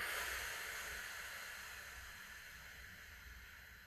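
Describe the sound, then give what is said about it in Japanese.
Breath is released during a relaxing breathing exercise in a vocal warm-up, making a long, steady, airy hiss that slowly fades, with no talk. “ラスト、吸って、吐く。”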